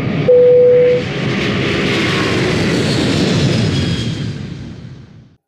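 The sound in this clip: An airplane taking off: a broad, steady engine roar that holds loud for several seconds and then fades out, opened by a brief steady tone at the start.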